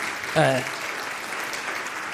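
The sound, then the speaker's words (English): Audience applause for a worship band at a church service: steady, even clapping with a brief loud vocal shout near the start. “Round of applause, please, for the Looney's worship.”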